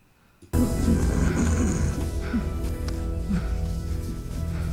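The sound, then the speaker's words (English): Strained, raspy gasping of a film character struggling to breathe in space in Interstellar; rough breaths rise out of a short quiet opening and continue loudly over a dense, sustained layer of low sound. “So he's just staring at him, struggling to breathe now.”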